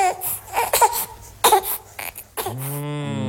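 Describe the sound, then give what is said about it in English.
An infant cries in a few broken, choppy sobs, then rises into one sustained, tonal wail at the end. No speech is heard. “Also, there's a baby crying.”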